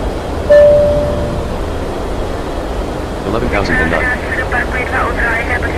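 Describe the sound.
An airplane takes off with a continuous broad engine roar. A brief high whistling tone sounds near the start, and voices are heard over the noise in the later half.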